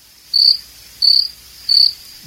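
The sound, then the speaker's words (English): Crickets chirping: three evenly spaced, shrill, high-pitched trills, each about a fifth of a second long and clearly audible over a faint background hiss. “It's a lot going on over here with all these crickets around.”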